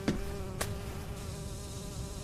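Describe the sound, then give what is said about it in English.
A wasp buzzes in a video game as a steady, unbroken drone that holds one pitch for the whole clip, with two brief clicks near the start. “Wasp. 9 feet.”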